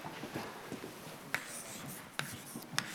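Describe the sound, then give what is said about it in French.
Chalk writing equations on a blackboard: faint, soft scratching strokes broken by a few sharper taps as the chalk meets the board. “Donc je vais reprendre ces équations constitutives, je vais vous les réécrire sur le tableau. Je vais les écrire là.”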